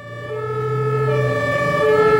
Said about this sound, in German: Mit donnerndem Signal und blau blitzendem Licht fahren wir zu unserem Einsatz.